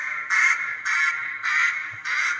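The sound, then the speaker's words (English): A competition duck call blown by a caller warming up, running from a power chatter into a high hen: four loud, sustained, raspy quacks in a steady rhythm, each separated by a brief dip. “just listen to how he comes out of this power chatter into his high hen.”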